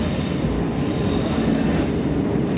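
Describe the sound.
A train at Lausanne railway station gives a loud, steady rumble of rolling railcars with a thin high whine running through it and a brief sharp click midway. No voices are heard.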